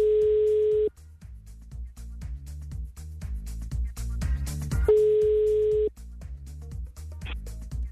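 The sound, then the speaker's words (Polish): Telephone tones as a call is placed for a prize game: two long, steady beeps a few seconds apart, each cutting off sharply, over a rhythmic music bed with punchy beats. “Jeśli działa jak należy, to w takim razie już teraz mogę do kogoś z Was zadzwonić.”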